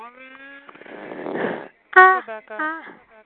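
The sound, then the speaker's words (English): Snoring: a drawn-out, rasping breath swells for about a second and then cuts off. Short voiced, tonal sounds follow. “Someone is snoring.”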